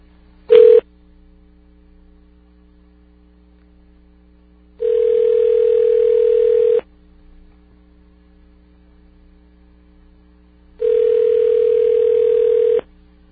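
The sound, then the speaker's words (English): Telephone line tones while calling a community corrections office in Long Beach, California: a brief beep, then two long steady tones roughly six seconds apart, over a faint low hum. “I have the phone number for the Long Beach CCM, whatever that is. Let's just make sure they didn't forget.”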